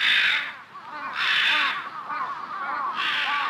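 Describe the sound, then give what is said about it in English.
Crows caw in several harsh, raspy bursts separated by short gaps, the calls loud and grating with a scratchy, buzzing texture. “As we're shown the title card for the episode, we hear the ominous sound of crows,”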